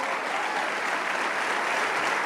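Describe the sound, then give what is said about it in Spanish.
Applause from an audience during a church service, a steady, even wash of many hands clapping at moderate loudness that carries on unbroken for the whole stretch. “Le damos un aplauso.”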